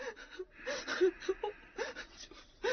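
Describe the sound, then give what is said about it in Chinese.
A child's whimpering, gasping sobs come in a few broken, halting bursts of moderate loudness, with short pauses between the cries. “别哭了，小鬼。”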